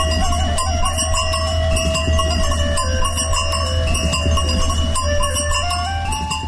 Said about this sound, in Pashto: دا غزنی مقر ولسوالۍ د زرکشان غره په لمن کې شاوخوا 10 کلن شپون کایرم اتسروي د رمې د پسونو د غاړې له زنګولو څخه خوږه شلنګه خيځي.